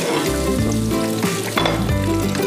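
Mushrooms frying in hot oil make a loud, continuous sizzle and crackle, broken by a few scraping and stirring knocks of a utensil in the pan. No voices are heard.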